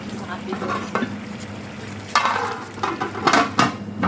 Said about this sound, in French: Et là, on met le couvercle.